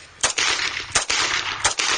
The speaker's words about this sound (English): He's shooting at her laptop. He's shooting holes in her laptop.